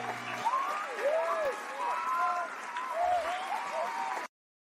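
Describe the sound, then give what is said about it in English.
An audience applauds to welcome a show host and producer. Sustained clapping runs with voices rising over it, then cuts off abruptly near the end. “Now give it up for our host and producer, Coach Kiever Lernice Murdoch.”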